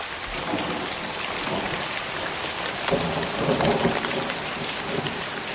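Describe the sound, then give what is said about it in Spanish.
Heavy rain pours in a thunderstorm beneath a dark sky with lightning, making a dense, continuous hiss while low thunder rumbles underneath and swells slightly louder partway through. “ese cielo violentamente oscuro, con rayos de colores en el horizonte. Si algo me apetecía más que la sintonía del programa era este sonido.”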